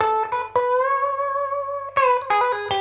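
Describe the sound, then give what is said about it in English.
Electric guitar strings played two or three at a time through a light, constant distortion that adds slight grit and warmth: several strummed chord strikes around one long sustained chord, bright and full, with no voices. “And now when playing two or three strings, it won't distort that much, so you get the constant distortion”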